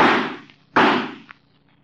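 Two loud pistol shots fired from a car, each a sharp crack that fades away slowly, with a short gap between them.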